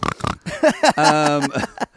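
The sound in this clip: A person imitates a pig oinking, a single long, nasal, buzzing grunt that follows a few quick spoken syllables.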